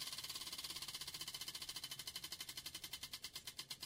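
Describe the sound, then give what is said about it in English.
A prize wheel spins with a faint, rapid, regular ticking that steadily slows as the wheel loses speed, the clicks spreading further apart toward the end. “Let's spin the wheel.”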